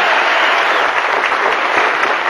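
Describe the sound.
Loud, dense applause welcoming Arnold Schwarzenegger and a second guest at a Hummer key-handover ceremony. The clapping is a continuous, even roar throughout.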